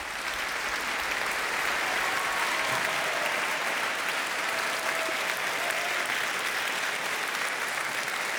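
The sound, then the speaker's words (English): Rousing applause for the BBC Scottish Symphony Orchestra after a rendition of Dvořák's Carnival Overture: a dense, even patter of many clapping hands that holds at a steady level throughout, with no voices standing out. “BBC Scottish Symphony Orchestra there to rousing applause at the end there in that buoyant rendition of Dvorak's Carnival Overture.”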